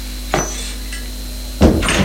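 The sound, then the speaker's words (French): Knocking on a bedroom door: two sharp, hollow knocks land more than a second apart, with a faint tap between them, over a quiet steady hum. “Elle va frapper à la chambre de Charles-André”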